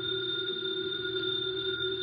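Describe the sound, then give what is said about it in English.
A house telephone ringing with a steady, unbroken electronic tone that holds evenly at moderate loudness for the whole clip, with no voices. “The phone is ringing. Let it ring.”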